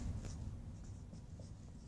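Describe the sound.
Writing on a board during a lecture gives faint, scratchy strokes. A few short marks sound quietly in steady succession.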